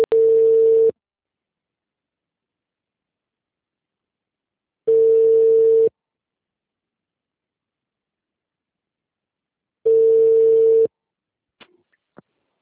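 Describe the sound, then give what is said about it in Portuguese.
Telephone ringback tone heard while placing a call: three steady, even-pitched beeps, each about a second long, separated by long gaps of silence and followed by a few faint clicks. “Tô ligando pra cliente da Ana, tá?”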